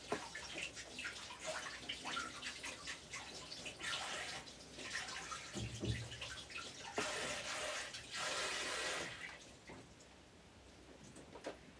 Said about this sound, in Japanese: 一旦ちょっと手洗ってきますね